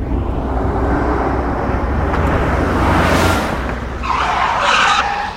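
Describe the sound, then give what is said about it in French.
Tires screech as a Honda Prelude with 18-inch rims overtakes and skids to a stop across a road. A loud, steady rush of car noise swells in the middle, then a higher squeal of skidding rubber rises toward the end. “L'autre véhicule le dépassa dans un barrissement denté avant de s'arrêter en travers de la route, 20 mètres plus loin.”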